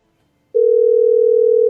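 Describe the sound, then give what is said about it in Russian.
A telephone ringback tone sounds while a call goes out: a single steady, mid-pitched tone lasting just over a second, alone after a brief silence. “Гудки. А, гудки же вы все сейчас слышите.”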